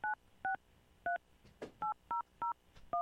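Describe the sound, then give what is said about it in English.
Touch-tone keypad beeps as a phone number is dialed: seven short, clean dual-pitch tones in an uneven rhythm, fairly faint, with a brief muffled thump partway through. “Let's get her on the line. This is always the fun part, the dialing.”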